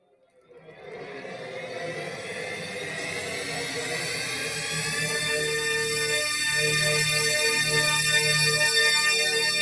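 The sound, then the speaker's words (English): The THX cinema intro sound plays as a dense cluster of tones that starts as a low murmur, then swells steadily into a loud, rich sustained chord over nearly ten seconds. “I'm gonna play the THX intro.”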